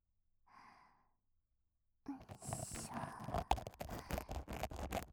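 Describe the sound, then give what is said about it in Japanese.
A single soft, breathy exhale near the start, then about a second of silence before dense, loud scrubbing and rubbing noises fill the rest. “息は止めないで、ゆっくり吐いて、”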